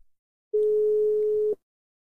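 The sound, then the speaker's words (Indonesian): Telephone ringback tone heard while placing a call: a single steady, mid-pitched electronic tone lasting about one second, clear and alone, with silence before and after. “Masih menunggu ini diangkat langsung apa enggak ini?”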